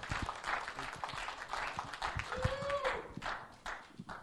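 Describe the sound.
A church audience applauds to welcome a new youth pastor, with steady, soft clapping that continues under a voice.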